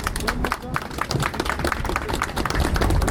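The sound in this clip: Applause from an audience welcoming a speaker at a defence campaign meeting, a dense, steady wash of many hands clapping that holds at an even loudness throughout.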